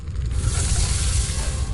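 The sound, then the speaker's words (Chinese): Wok frying at a Chinese cooking championship, heard as a dense, steady sizzle with a low rumble beneath, continuous and even throughout with no distinct clanks. “成都新国际会展中心油烟缭绕，锅铲作响”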